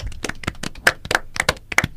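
A classroom of pupils claps for a student. Many quick, sharp hand claps come in an uneven rhythm, with a few louder claps standing out.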